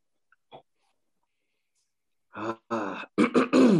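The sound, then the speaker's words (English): A man clears his throat in a few rough, throaty bursts that come close together after near silence, with one faint brief sound at the start. “This motherfucking cleared his throat, bro.”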